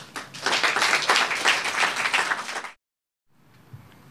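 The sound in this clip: An audience applauds to welcome a speaker with dense, steady clapping that lasts nearly three seconds and then stops abruptly, leaving a brief silence and a faint low rumble.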